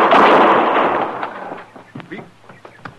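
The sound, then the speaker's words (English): A single loud gunshot bursts at the start, and its harsh noisy tail fades over a couple of seconds while faint scattered clicks and rustles follow. “You shot him. Of course I shot him.”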